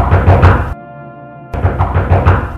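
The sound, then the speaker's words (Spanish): Knuckles rap rapidly on a bedroom door in two loud bursts of several knocks each, separated by a short pause in which a faint sustained tone lingers. “¡Rosaurita! ¡Abra la puerta, niña!”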